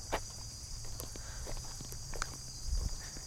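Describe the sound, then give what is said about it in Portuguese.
Footsteps walking up a ramp at night, a series of soft, even treads under the steady high chirring of crickets throughout. “Agora vamos subir na rampa de novo.”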